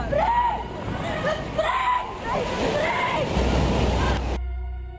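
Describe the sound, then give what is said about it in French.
A giant tsunami wave, tall as a building, crashes onto the Indonesian coast in a loud, continuous roar of rushing water, with voices over it, before the noise drops away near the end. “Quelques minutes après, une vague géante, haute comme un immeuble, s'abat sur les côtes indonésiennes.”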